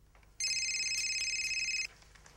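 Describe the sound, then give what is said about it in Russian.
A telephone rings in one sustained electronic burst of bright, high, warbling tones lasting about a second and a half, with quiet background before and after. “Бабуль, возьми трубку.”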